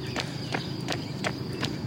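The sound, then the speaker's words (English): Running footsteps under a tunnel, five evenly spaced, moderately loud steps over a steady background hum. “I had another run of footsteps, heard birds, heard the echoing of noises in my footsteps as I ran under a tunnel.”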